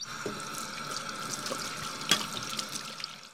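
Tap water runs as a woman washes her hands in a family home, a steady, faint hiss of flowing water with a few small splashes.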